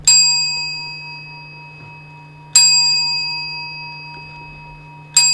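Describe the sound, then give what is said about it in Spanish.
Clock tower bells ring the New Year chimes, three bright metallic strikes at slow, even intervals, each with a long fading hum. No voices are heard. “Luego se oyen los cuartos, que son 4. Y hacen. ¡Ding dong! ¡Ding dong! ¡Ding dong! ¡Ding dong! Y seguidamente las campanadas.”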